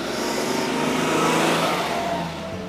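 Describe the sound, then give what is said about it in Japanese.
Car engine and tires on a road give a loud, steady rumble and roar that fills the whole clip and eases slightly near the end. “ちょうどね車も来ちゃったりしてますが”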